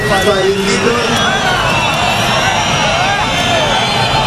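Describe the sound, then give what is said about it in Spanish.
Loud booing from a crowd at a Guardia Civil swearing-in of new agents at the academy in Baeza, a thick, sustained mass of jeering voices that stays loud and steady throughout. “recibió en la Academia de la Guardia Civil, en Baeza, la jura de nuevos agentes, este sonoro abucheo que van a escuchar.”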